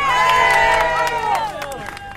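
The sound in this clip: A crowd cheers and shouts encouragement to runners along the Seine in Paris during a nighttime group run. Overlapping voices and whoops stay loud throughout.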